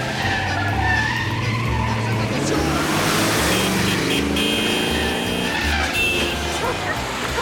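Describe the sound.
Tires skid and an engine roars as a car speeds away from a station, a loud, steady rush of engine and road noise that holds for the whole clip.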